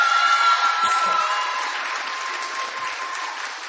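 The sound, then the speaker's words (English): Audience applause welcoming a young person at a baptism: dense, steady clapping that holds for the whole stretch and eases slightly toward the end, with no talk over it. “Can you put your hands together and make Ella Sagonic feel welcome?”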